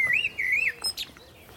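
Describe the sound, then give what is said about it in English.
A blackbird sings from an alder tree above a small bridge over a waterway: two clear, fluting warbled phrases, then a few brief higher chirps, loud against a soft background hiss. “while a blackbird sings from a, an alder above us.”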